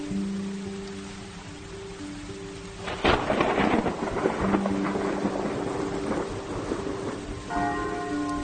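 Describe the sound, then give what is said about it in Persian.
Thunder and heavy rain: steady rain hisses throughout, then a sharp thunderclap bursts in and rolls into a long, loud rumble over the downpour. “با صدای رعد و برق و بارش تند بارون به خودم اومدم.”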